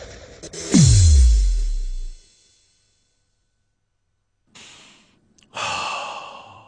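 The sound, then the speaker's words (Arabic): Human breathing: one long, loud breath, then a stretch of silence, then a few more breaths, the last one longer. No talking. “التنفس، هذه العملية التي تبدو غاية في البساطة والتي قلما يفكر الناس فيها”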